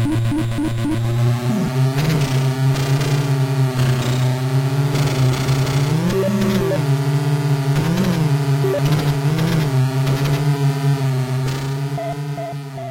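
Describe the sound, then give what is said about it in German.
Monotonous engine drone of jeeps driving across a breakfast table, a steady buzzing hum with layered harmonics whose pitch wobbles up and down repeatedly, with a few higher whirring accents before it fades slightly at the end. “Aber es ist ein relativ monotones Gebrumme. Also, wir können jetzt hier mal reinhören, wie das klingt, wenn man mit Jeeps über den Frühstückstisch fährt.”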